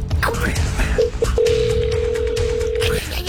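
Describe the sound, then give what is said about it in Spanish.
Ringback tone of an outgoing telephone call: after a couple of short blips, one long steady mid-pitched beep sounds over murmuring voices in the background. “No, pero no contestas. Ahí está. Está llamando a don Chiliberto.”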